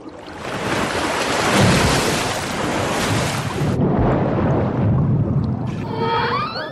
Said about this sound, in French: Voici leur ennemi mortel. Les orques se mettent à plusieurs pour rabattre les manchots en les effrayant à grands coups de queue.